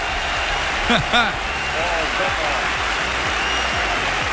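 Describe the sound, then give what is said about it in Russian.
Studio applause for a radio contest winner: a steady wash of clapping that holds for several seconds, with a voice speaking over it briefly. “Эти аплодисменты тоже для тебя.”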